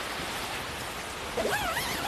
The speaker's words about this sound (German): Also lass mich mal duschen.